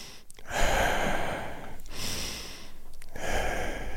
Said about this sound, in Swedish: Djup andetag.